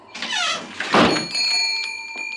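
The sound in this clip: A door being closed gives a squealing hinge creak, then a single dull thud as it shuts, after which a steady tonal ringing lingers quietly to the end.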